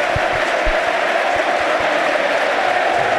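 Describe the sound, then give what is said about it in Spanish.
Football stadium crowd singing together after a goal for Racing: a dense, continuous roar of many voices that stays loud and steady throughout. “Mira, todos cantándolo, todos cantándolo. Todos cantándolo”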